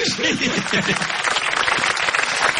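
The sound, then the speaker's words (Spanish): Applause at a wedding party: a dense burst of many hands clapping, with voices briefly audible at the start. “Se arruinó la fiesta. Mire cómo aplauden igual.”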